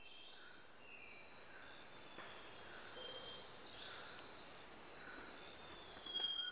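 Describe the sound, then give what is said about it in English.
Insects chirp in a tropical forest in Ecuador, a steady, faint high-pitched drone that swells louder three times, with no voices. “This is the sound of a tropical forest in Ecuador.”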